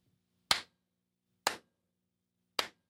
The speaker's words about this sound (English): I can go way over here and clap my hands.